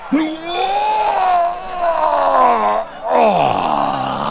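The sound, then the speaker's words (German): A man cries out in pain after a hard punch to his spine. A long, loud, groaning yell wavers in pitch, then after a brief break a second, shorter cry sweeps downward. “Schreit der Gladiator.”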